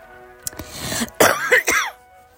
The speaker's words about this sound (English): Excuse me coughing at you.